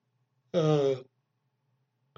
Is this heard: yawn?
yes